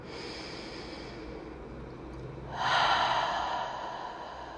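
Slow, deep breathing during a guided relaxation exercise: a steady airy hiss of air moving in and out, swelling into one louder, fuller breath partway through before easing back down.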